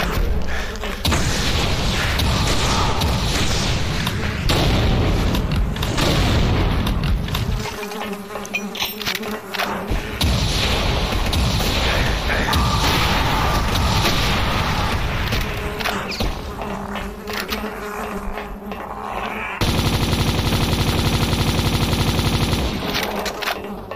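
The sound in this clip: Rocket fire in a video game: a harsh, buzzing barrage with rattling gunfire and booming blasts that runs almost without a break, with a couple of short dips in intensity.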